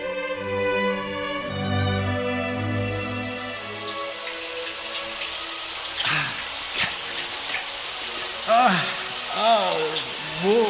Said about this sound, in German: I've got to have a shower first.